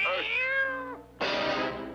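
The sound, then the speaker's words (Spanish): A cat meowing in a cartoon kitchen scene: two meows, the first drawn out and sliding downward in pitch, the second a sudden brighter cry that holds steady. “¿De dónde ha salido ese gato? Nunca antes había habido un gato en esa cocina.”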